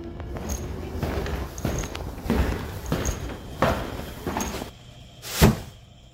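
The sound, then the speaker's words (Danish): Footsteps and a door as someone comes into a small apartment. A few scuffing steps and soft door-handling knocks follow each other unevenly, then a sharper, louder thud comes near the end. “Så er jeg kommet indenfor i min lille lejlighed.”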